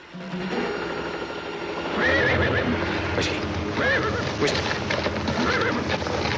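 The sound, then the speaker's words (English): A frightened horse neighs a few times on a narrow ridge, with high, wavering whinnies over a loud, busy bed of shuffling and rattling noise. “The frightened-looking horse shuffles back along the narrow ridge.”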